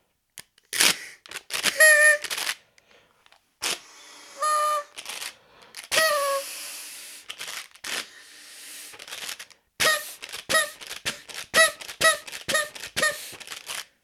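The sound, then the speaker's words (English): A blue paper party blower with a spiral paper tube is blown in many quick, irregular bursts. Each burst gives a short reedy squeak or toot, mixed with crinkly paper rustles and brief silences between them. “It's one of those blowy, spirally, papery, party favour type thingies.”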